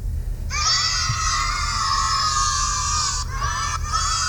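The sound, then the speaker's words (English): A horde of kids cheering and shouting together, a loud, high-pitched sustained cry lasting about three seconds, followed by a shorter burst of the same shouting. “Yeah, that was weird. Okay, all of a sudden this horde of kids just entered my room.”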